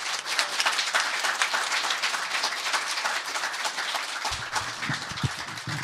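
An audience at a live event applauds to welcome Scott Ian, the Anthrax guitarist. Dense, steady clapping holds at an even level the whole way through, with a low rumble joining near the end.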